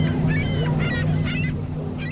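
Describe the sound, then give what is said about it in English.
Seagulls call on a sandy beach at the lakeshore surf in Waukegan, Illinois: a few sharp, nasal cries over a loud, steady low rumble. “Sometimes thousands of seagulls populate the sand and surf here”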